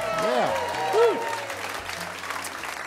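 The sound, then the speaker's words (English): Studio audience applause at a show taped in the Museum of Commerce in Pensacola. Voices rise briefly at the start, then sustained, dense clapping continues at an even level. “What a great audience. Give yourselves a big hand.”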